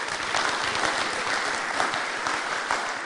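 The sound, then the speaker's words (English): A church audience applauds to welcome a guest speaker. Many hands clap in a dense, even wash that holds steady from start to finish, with no single voice standing out. “So let's put our hands together and give Neil a warm Common Away welcome.”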